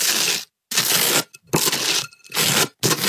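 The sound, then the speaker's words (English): Butter spread on toast makes several loud, raspy scraping strokes, each a dry crackling rasp separated by brief pauses. “Spreading something on toast. Yeah, it's spreading butter on toast.”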